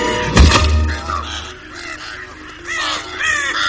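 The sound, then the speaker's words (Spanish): A crow caws as it lands on a hat in a film scene: a dull thump first, then a run of harsh, raspy caws, with louder ones toward the end. “Cuervo se posa en el sombrero del ministro.”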